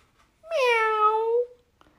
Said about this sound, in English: There was a dog, woof, woof, a cat, meow,